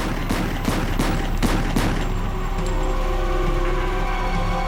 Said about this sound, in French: Un homme masqué s'approcha et fit feu 16 fois sur lui, presque à bout portant.